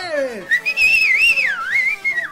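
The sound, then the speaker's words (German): Drunken men give loud whistles in a cantina. A whistle swoops downward, then a high, warbling line rises and falls in quick bends, bright and piercing over a low background. “Auf einem Tisch in der Mitte des Raumes tanzt ein junges, schlankes Mädchen unter lauten Pfiffen und Jubel einiger betrunkener Männer.”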